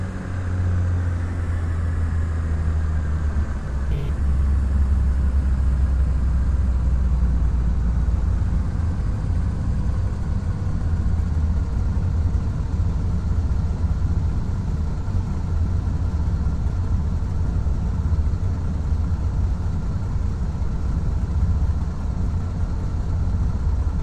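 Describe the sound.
Aircraft engine drone from the Lockheed Martin Prepar3D v4 flight simulator during taxi and takeoff, a steady, continuous low hum that holds at an even level throughout with little change.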